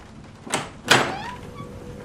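A bedroom door opening at night onto a dark hallway inside a house: two short, soft knocks or clunks close together, followed by a faint, thin creaking tone as the door swings.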